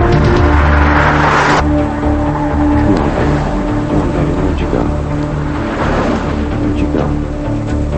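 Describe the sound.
Car engine hum as a woman keeps driving, a steady low drone with a whooshing rush of road noise at first that then eases back.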